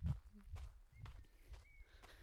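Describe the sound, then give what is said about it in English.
Running footsteps outdoors on a warm evening around quarter past eight at night after a hot day: a steady, even rhythm of soft thuds, about five footfalls roughly half a second apart, fairly faint with low background noise. “I'm actually out running now. It's quite late at night.”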